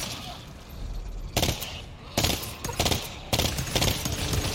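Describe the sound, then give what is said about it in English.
Rifle gunfire in a video game, three bursts of rapid crackling shots separated by short gaps over a steady background hum. “Like, oh, I like this gun. Hold on. What you got? The rifle kind of fire.”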